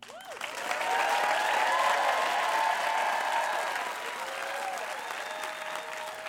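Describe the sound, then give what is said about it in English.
A standing ovation from a storytelling audience in New Orleans: sustained, dense applause from a crowd that swells to a loud peak and then eases slightly while continuing for about six seconds. “After Bernell told this story in New Orleans, the audience gave him a standing ovation.”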